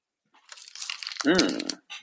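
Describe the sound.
Crinkling of a fruit-flavoured candy wrapper, with an inner and an outer layer, being opened: crackly, papery rustling that grows busier. A voice briefly cuts in near the end.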